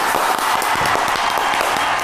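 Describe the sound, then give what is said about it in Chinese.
Audience applause welcoming a company manager onto a stage in front of a studio audience: dense, even clapping that holds steady at a constant level for the whole stretch, with no pause or break. “我们掌声有请胡经理上场”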